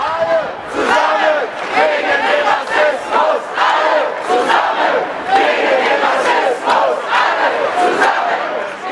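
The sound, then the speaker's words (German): Crowd chanting at a demonstration against racism, many voices calling out in unison. The phrases repeat in a steady rhythm, loud and continuous throughout. “Und wir starten vielleicht noch mal mit einem Ton von einer Demonstration zu dem Thema Rassismus”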